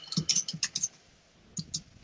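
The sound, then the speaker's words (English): Computer keyboard typing: a quick run of crisp key clicks, then a pause and two more keystrokes, all alone without talk. “Let me see if I can just type in.”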